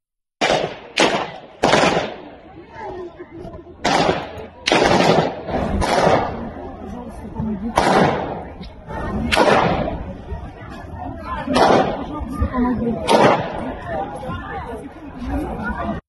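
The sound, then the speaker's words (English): Gunfire from terrorists shooting inside a music hall: a string of sharp, loud bangs at irregular intervals, with voices and chatter in between. “Now, the one thing that I found interesting is that you can see the terrorists right here just shooting, right? They're just there shooting.”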